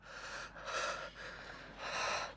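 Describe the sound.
A man gasps sharply, a few loud, breathy intakes and exhalations in quick succession, airy and hissing with no speech.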